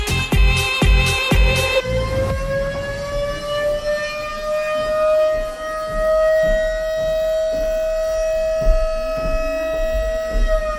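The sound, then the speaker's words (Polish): A civil-defense-style siren from an outdoor art sound installation, wailing loud and steady. A few heavy thumps come first, then the tone rises and settles into a long sustained note rich in harmonics. “To teraz przemierzamy teren i ruszamy za dźwiękiem. Co to za syrena?”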